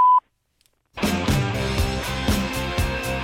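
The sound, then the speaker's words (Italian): A single short voicemail beep, a steady mid-pitched tone, sounds loudly, then a pause and music with a steady beat. “Lasciare un messaggio dopo il beep.”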